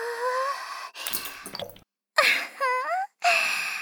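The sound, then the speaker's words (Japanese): Warmed lotion poured into a hand, heard as soft, wet glugging drips and squelches in a few separate bursts, some with a gurgling tone that rises in pitch. “君の口の中に入れたローションを私の手にいっぱい垂れ流して、トクトクトクトク、ドロ”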